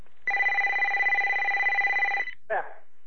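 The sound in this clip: A mobile phone rings with a steady electronic tone held for about two seconds, then a brief warbling chirp, with no other sound around it.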